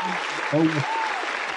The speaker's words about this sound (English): Sorry, I had to throw the applause in there for you